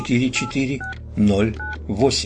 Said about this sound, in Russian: осторожно набирает номер, и мы слышим соответствующие каждой цифре номера щелчки